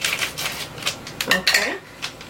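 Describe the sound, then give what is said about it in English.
Pan and utensil clatter as grass-fed beef goes into the pan: a quick run of metallic clinks and scrapes, moderately loud and uneven in rhythm. “Now, we're going to add the beef.”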